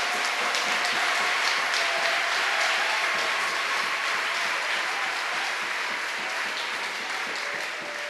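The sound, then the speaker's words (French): A church audience at a thanksgiving service for Bible camps claps for the Lord. Many hands make a sustained, dense roar of applause that eases slightly in volume toward the end. “We are still going to clap for the Lord.”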